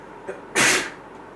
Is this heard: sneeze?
yes

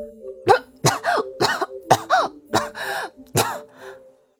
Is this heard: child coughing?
yes

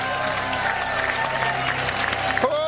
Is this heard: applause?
yes

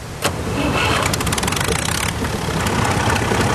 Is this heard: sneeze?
no

